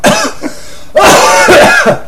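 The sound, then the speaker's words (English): A person coughs and clears their throat after choking. A short harsh burst comes first, then a longer, louder round of raspy coughs and hacking throat clearing. “Excuse me, I choked. Get it out. Get rid of it.”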